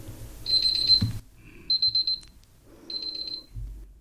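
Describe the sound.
An alarm signal marking the end of a timed presentation sounds in three high-pitched bursts, the middle one broken into rapid, even pulses, with a low hum underneath and no voices.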